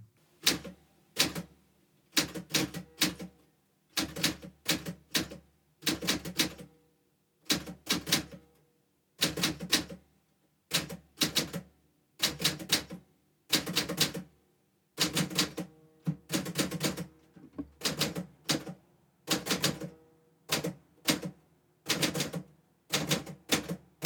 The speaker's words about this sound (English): close your eyes and begin to type slowly and intentionally. Focus on the physical sensation of each keystroke.